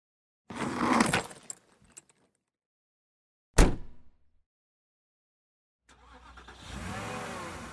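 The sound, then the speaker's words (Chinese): Keys jangle in a few bursts, a sharp thud follows after a pause, and then a car engine cranks and starts, its running rumble building and holding to the end. “两天后，姑姑开车来接他们，把行李塞进后车厢。”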